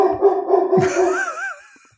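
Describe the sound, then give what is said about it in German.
A dog gives loud, throaty barking and yipping noises that turn into a high, wavering whine, which fades away at the end. “Darf ich vorstellen, meine Damen und Herren, das ist der Hund von Dirk, Anouk. So, hallo Anouk, jetzt halt mal die Klappe, Anouk.”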